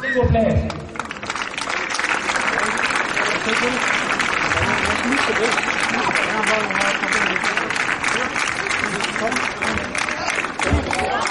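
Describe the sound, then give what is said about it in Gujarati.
An audience at a community gathering applauds in dense, steady clapping that lasts almost the whole clip after a brief pause near the start. Voices mingle with the clapping. “હવે છોકરાઓને અને શેખ અમેદને ઓનરી કરવા માટે તમો તાળી તાળી રાખો.”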